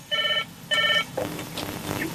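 Electronic telephone ringing for an incoming call: two loud, evenly spaced ring bursts, each about a third of a second long, followed by a quieter stretch.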